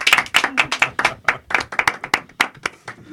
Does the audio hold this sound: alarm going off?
no

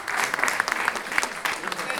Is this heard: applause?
yes

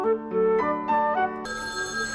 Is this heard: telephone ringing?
yes

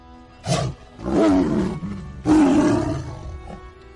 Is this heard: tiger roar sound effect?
yes

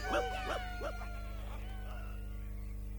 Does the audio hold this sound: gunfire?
no

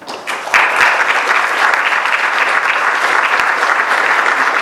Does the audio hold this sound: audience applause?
yes

